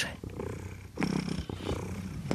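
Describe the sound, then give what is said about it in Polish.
A heavy house cat purring steadily and continuously, a low rumbling drone that holds fairly loud for the whole stretch, with no talk over it. “Niech on mruczy.”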